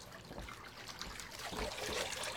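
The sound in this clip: Bath water trickles and laps softly in a faint, irregular dribble of small splashes with no speech.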